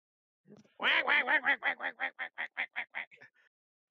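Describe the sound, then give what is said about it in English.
A duck quacks in a rapid series of many harsh, nasal calls, loud at first and gradually softening toward the end, with no talk over them. “Hello, duck! The duck doesn't want anything. The duck is freaked out now and takes off with Ani”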